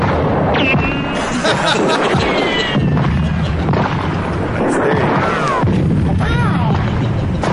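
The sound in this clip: Bullets from a real gun ricochet in several sharp bursts, each crack trailed by a high, sliding whine, over a loud, dense background of booms and clatter.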